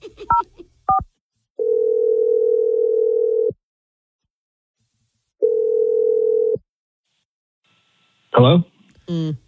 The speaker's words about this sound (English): we're going to dial his number right now. Here we go.